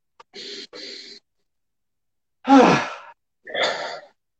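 Deep breathing during a guided breathing exercise: a few airy, forceful rushes of breath separated by pauses, the middle one the loudest.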